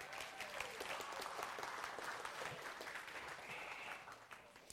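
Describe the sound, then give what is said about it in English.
Church audience applauding a performer: a steady, fairly faint wash of many hands clapping that holds at an even level throughout. “All right, well, thanks, Joseph. Right. Thanks. All right, let's hear it for Joseph.”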